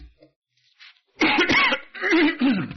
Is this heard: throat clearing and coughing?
yes